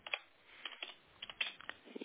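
Keyboard typing as a patient's surname, first name and patronymic are entered for an appointment booking: a quick, irregular run of soft clicks with no voices.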